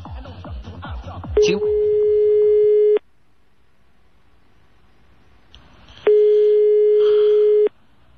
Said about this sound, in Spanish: Estamos llamando a Telde. No hay suerte.